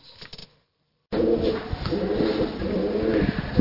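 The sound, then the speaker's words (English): Pigeons coo at Kenilworth Castle, a low, soft, repeated cooing that runs steadily and alone after a short silent gap near the start. “that's the sound of pigeons”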